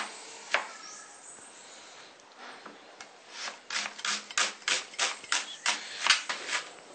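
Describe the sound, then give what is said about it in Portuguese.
A knife chops an onion very finely. One lone knock comes first, then after a pause a fast, even run of many crisp chops follows in close rhythm. “Agora, vamos cortar a cebola. Bem pequenininha.”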